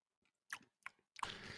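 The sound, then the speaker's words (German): Quiet chewing of a bean during a tasting: a couple of sharp, crunchy bites separated by silence, followed by continuous grinding mastication to the end. “Warte, ich probiere mal kurz die Bohne.”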